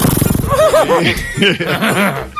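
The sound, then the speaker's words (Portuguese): A man's voice imitating a horse neighing, a loud run of quick, warbling rise-and-fall whinny calls. “Vai imitar um cavalo. Cavalo.”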